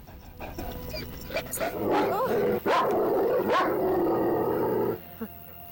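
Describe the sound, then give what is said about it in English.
A dog gives a run of excited yips and whining barks as it gallops up to two women, the high, sliding cries coming in a steady stream before stopping abruptly. “The dog gallops up to the two women.”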